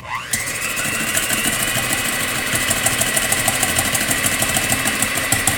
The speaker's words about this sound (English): it's listen time to the dulcet sounds of my electric hand mixer.